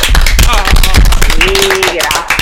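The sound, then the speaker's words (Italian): Audience applause at an Italian evening talk event, thanking a guest professor: dense, steady clapping that fills the whole moment at full volume, with a faint tonal line running through it. “Gliene facciamo un applauso tutti insieme?”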